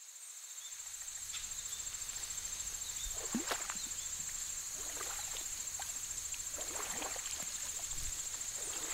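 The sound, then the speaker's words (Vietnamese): Wooden oars creak as a boat is rowed on a river beside a small hamlet at night, with soft, irregular creaks over a steady high-pitched chirring of insects. The whole scene is quiet. “Dưới sông, tiếng kinh kít của mái chèo đang khẽ vang lên.”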